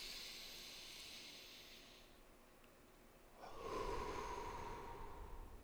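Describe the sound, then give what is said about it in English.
A person takes a deep breath, drawing air in with a soft airy hiss, then after a short pause lets it out in a longer, slightly louder exhale with no talking. “Take a deep breath and release it all. I'm gonna do that again.”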